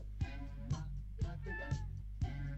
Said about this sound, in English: She's basically sitting here telling me that she's not well. Poor little cat.